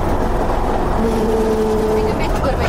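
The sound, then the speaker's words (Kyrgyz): Heavy engine drone from a motor grader and snow loader clearing snow on the Tubashuu mountain road, with a Caterpillar machine mentioned. The rumble is loud and continuous, with a faint tonal whine in the middle. “Бүгүн Тубашуунун жолун автогрейдер кар жүктөгүч машине менен бирге тазалап жатат.”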